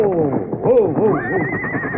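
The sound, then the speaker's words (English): A mare whinnies in a long, quavering neigh of wavering tones that ends in a high, thin trailing note. The call is loud and fills the whole moment. “Whoa. Steady. Yeah, I reckon she'll be darn glad to feel a saddle on her again, this Peter.”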